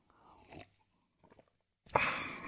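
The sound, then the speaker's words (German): A sip of coffee: soft, faint rustles come first, then a loud, breathy slurp of about half a second at the end. “Noch einen Schluck Kaffee.”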